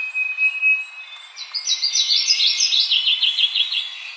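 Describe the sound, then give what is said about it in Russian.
A leaf warbler sings a rapid series of many high, repeated chirping notes in a steady rhythm, after a faint, thin whistle at the start. “И вот в этот момент очень будет здорово, если эта птица запоет.”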